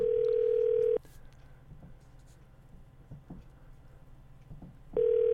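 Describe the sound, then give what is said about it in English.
Electronic ringback tone on a phone call to the Old Forge Police Department: a steady, even tone for about a second, then roughly four seconds of faint background hiss before the tone sounds again. “Okay, this is the Old Forge Police Department we're calling.”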